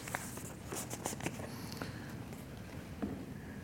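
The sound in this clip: Thin pages of a Bible being flipped toward the book of Revelation, past several bookmarks: a few soft, crisp papery flicks and rustles over a steady low hiss.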